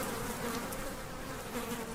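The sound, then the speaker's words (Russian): Flies buzz in a video-game stable, a steady droning hum that runs unbroken and quiet throughout, with no pauses or changes. “Конюшня. Мухи. Мухи – это еда наших Вони Бухов.”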